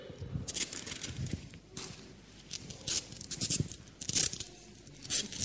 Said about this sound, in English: I'm taping it onto a vine. Well, it's not a vine, it's a fig tree, but it's the closest I could get at short notice.